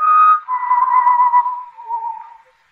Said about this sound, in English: The whistling was somewhere in the building. I listened. Where was it coming from?